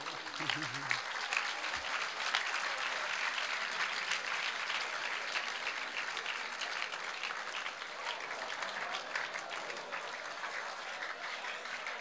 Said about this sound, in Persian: باریک الله براش دست بزنید.